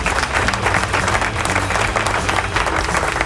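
Crowd applause for a radio station announcer: dense, continuous clapping at a steady, fairly loud level for the whole stretch, with no voices.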